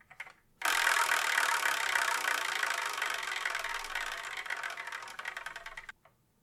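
Prize wheel spinning, heard as a dense, rapid clatter of ticks that starts abruptly and slowly loses strength. Toward the end the ticks thin out into separate clicks before stopping.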